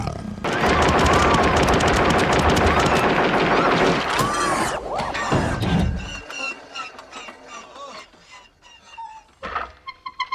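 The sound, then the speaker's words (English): Gunfire in a gunfight with murderous killing-machine androids: dense, loud rapid-fire bursts for about six seconds, then dropping to sparser, fainter shots and clatter. “And gunfights with murderous deathbot killing machine androids.”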